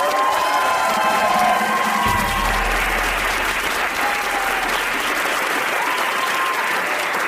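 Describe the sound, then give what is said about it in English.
An audience breaks into applause and cheering to greet a guest, with dense steady clapping and scattered whoops that stay loud throughout. “put your hands together, please”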